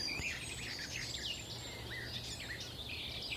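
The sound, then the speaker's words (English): Garden warbler singing, a faint, rambling stream of throaty, rapid warbling phrases that runs on continuously over a low steady hum. “Might be a garden warbler again. I think that is. Sort of rambles on. It's really beautiful, actually.”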